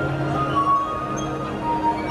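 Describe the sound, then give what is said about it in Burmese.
Sustained ringing tones from wine glasses filled with varying amounts of water and played as a musical instrument; several pure, steady pitches sound and overlap at an even loudness, with no talk. “ဝိုင်ခွက်တီထဲမှာရေပမာဏအမျိုးမျိုးထည့်ပြီးတော့ဂီတတူရီယာအဖြစ်ဖန်တီးပြီးတော့တီးခတ်တဲ့ပညာကိုပြသခဲ့တယ်”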